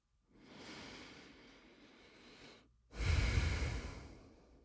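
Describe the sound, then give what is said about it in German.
A slow, deep breath: a long, soft inhalation followed after a brief pause by a louder, breathy exhalation, heard alone without talk. “Nimm einen tiefen Atemzug ein und aus”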